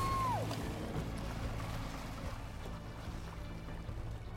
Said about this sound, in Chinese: 你同我講，你話揸快艇過嚟。